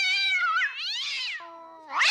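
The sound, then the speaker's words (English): Cat meowing: a few loud, drawn-out meows with wavering pitch, heard alone with no talk. “Will somebody get that pussy cat out of here? I'm allergic.”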